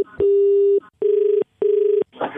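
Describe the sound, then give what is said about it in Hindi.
Keypad tones from phone buttons pressed repeatedly by accident in a pocket during a call: three steady mid-pitched beeps, the first longest, followed by a short burst of rustling noise. “तेरी जेब में phone रखा होगा वो button दबा होगा बार बार”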